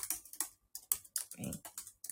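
Typing on a computer keyboard: many quick, crisp key clicks in an uneven rhythm, fairly quiet, with short pauses between bursts and no talking.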